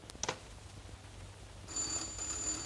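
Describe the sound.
A few soft clicks come first, then a quiet telephone ring starts partway through: a bright, warbling electronic tone that keeps sounding to the end.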